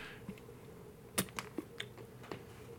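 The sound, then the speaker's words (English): Faint keyboard typing: a handful of quick, separate key clicks sound over a quiet background hiss, with no talking. “Damn, you typed that fast, too.”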